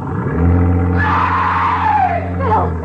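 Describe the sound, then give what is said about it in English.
Cabin cruiser boat engine: a loud, steady, low droning hum throughout, joined by a harsh, high wailing sound that swells and then slides downward toward the end. “I do know about cabin cruisers. I'll open the throttle and we'll cruise out a few yards.”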